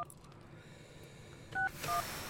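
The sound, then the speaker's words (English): Two short telephone keypad dialing tones, each a steady dual-pitched beep, sound in quick succession over a faint, quiet background. “I'll call a different one. Yeah. Dial like the wind.”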